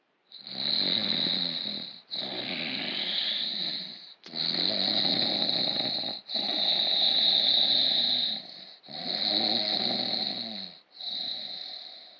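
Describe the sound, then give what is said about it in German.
A voice imitates sleeping robbers snoring in a told story, making six long, rasping, wheezy snores at a slow, steady rhythm with brief gaps between them. “Und ich weiß ja nicht, ob ihr wisst, wie das klingt, wenn Räuber schlafen.”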